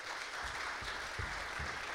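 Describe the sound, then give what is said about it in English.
Steady, fairly faint applause from an audience welcoming a boy up onto a stage, with a few soft low thumps under the clapping. “So can you welcome him up? Give him a hand of applause.”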